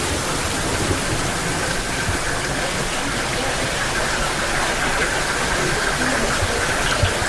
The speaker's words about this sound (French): Nous sommes face à un cristallisoir, des étagères en bois sur lesquelles ruisselle l'eau des sources.